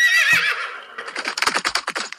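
A ridden horse gives a loud, high, wavering whinny, then its hooves clatter in a quick clip-clop rhythm of many beats.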